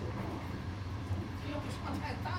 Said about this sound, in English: We are currently approaching Tianjin, the first stop on this train